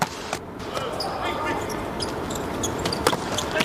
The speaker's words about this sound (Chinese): 穆亚诺维奇发球